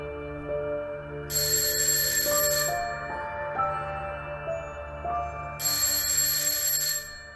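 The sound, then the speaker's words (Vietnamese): An alarm clock ringing loudly in a spacious bedroom: a stepped electronic chime melody over a steady tonal background, broken by two bursts of bright, high ringing. “Tiếng chuông báo thức treo lên inh ỏi”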